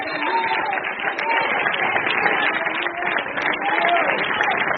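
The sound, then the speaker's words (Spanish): Congregation applause during a church service, a dense, steady wash of clapping that holds for the whole stretch with voices mixed through it. “Ese aplauso como que yo lo oigo, y este hermano, así como forzado.”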